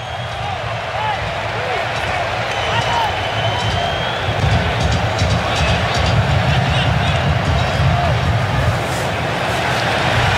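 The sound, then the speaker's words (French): American fans roar at a US World Cup soccer match, a loud, continuous crowd clamour with a commentator speaking over it. “Et écoutez ces clameurs. Le public américain est prêt pour sa Coupe du Monde.”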